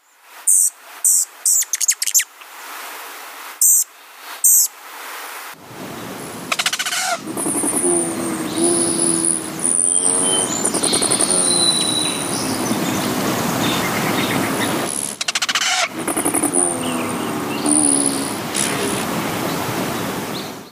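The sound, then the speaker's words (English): A bird usually thought of as quiet calls: a few brief sharp high chirps, then a long, loud, rough stretch with low warbling tones, broken by short gaps. “This is a bird, I'm giving you that much, and it is a bird we often think of as quiet.”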